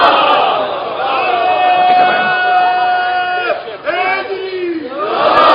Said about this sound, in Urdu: ابھی میں نے نعرہ لگایا، ابھی میں نے یا علی بولا